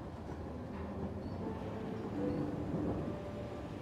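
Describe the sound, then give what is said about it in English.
A train rolls along its tracks as a faint, steady low rumble, continuous and even, swelling slightly near the middle, with no distinct clacks standing out. “Every clink and clack of the train tracks sends you deeper as you go in and out of consciousness.”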